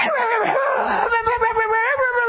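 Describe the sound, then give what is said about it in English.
A man imitates a dog barking at a cat, making one loud, drawn-out, howl-like vocal cry that wavers in pitch, followed by rougher, choppier growling bursts. “The clip, and it had this dog was at the steps, and he was barking at this cat.”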